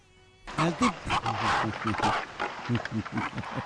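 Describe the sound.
A donkey braying: loud, rough, honking cries repeat in a steady rhythm of rapid pulses for several seconds.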